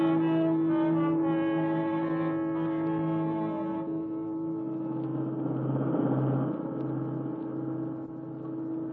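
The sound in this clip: A car drives and pulls up to the curb, its engine giving a steady, rich harmonic hum that shifts to a lower, rougher tone about halfway through and holds there to the end, with no voices.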